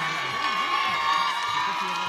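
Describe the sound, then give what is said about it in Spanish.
Audience cheering and applauding at a public event, a steady wash of many clapping hands and raised voices with occasional whoops. “Saludos, aplausos.”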